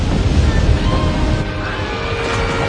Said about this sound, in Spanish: En el salón el agua arrastra a los pasajeros que se quedaron.